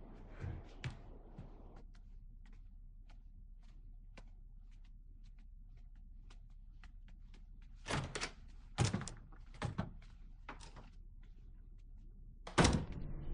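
A room door is shut and locked. After a long, quiet stretch with only faint ticks, a cluster of loud thuds and clattering knocks arrives, and one final heavy bang comes near the end.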